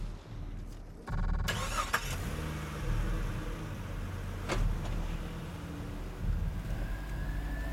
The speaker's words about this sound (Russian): Садится в машину.